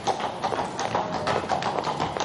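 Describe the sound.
Footsteps of a woman walking through a city: a steady run of many light tapping steps in an even rhythm, faint against a soft background hiss.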